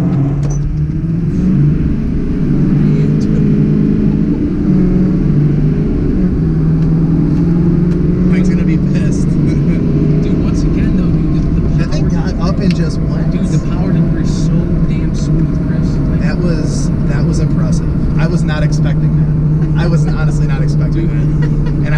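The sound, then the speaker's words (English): A Cummins diesel pickup truck with a 5-inch exhaust makes a light launch in four-wheel drive, a loud, steady, droning low rumble that holds without a break for the whole stretch. “I got a 5-inch exhaust going out my Cummins, and those are droney sumbitches. So we're going to, as promised, just do a little light launch, nothing crazy.”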